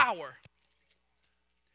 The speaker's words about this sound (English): I've got the keys. You know what keys mean?